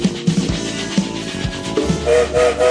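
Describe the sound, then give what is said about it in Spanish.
A train sets off with loud, rhythmic chuffing that keeps a steady pulse, and a short steady whistle sounds near the end over the chugging. “Sonó el silbato y ya estamos en marcha.”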